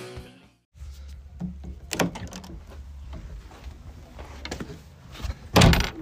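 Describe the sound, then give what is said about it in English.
A home's front door opening and closing: a few sharp clicks and knocks of the latch and handle, then a louder thud as the door shuts near the end, against a low steady background rumble. “That is the sound of my front door.”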